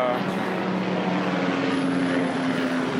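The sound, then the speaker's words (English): Continuous loud drone of a helicopter flying overhead in a city neighborhood, a steady engine and rotor hum that holds its level throughout. “That's like helicopter number 57.”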